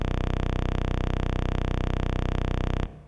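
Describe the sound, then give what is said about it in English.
A 31.25-hertz sawtooth wave, produced by a program looping a 256-byte output stream: a very low, harsh, buzzing drone rich in overtones that holds steady for about three seconds and then cuts off abruptly. “And this means we have a sawtooth wave of 31.25 hertz, which is at the lower end of human hearing range, and it sounds like this is 3 seconds of sawtooth wave.”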